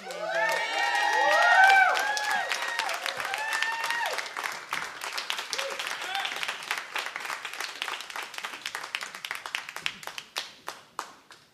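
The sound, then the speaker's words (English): Audience applause at a live music show in a theater: loud clapping and cheering swell to a peak early on, then thin out into scattered, sharper individual claps that fade toward the end. “One more round of applause for Anna.”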